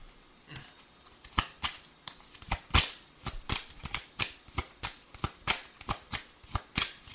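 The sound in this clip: Tarot cards being shuffled: many crisp riffling snaps in a fairly steady rhythm, each a short papery burst, repeating alone with no voices.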